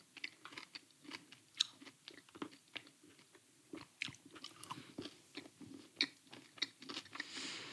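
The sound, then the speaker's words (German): Someone chews and crunches a Ferrero Rocher chocolate, with many faint, irregular crisp crunches and wet mouth sounds continuing throughout without talk. “So, ich habe so ewig kein Rocher mehr gegessen.”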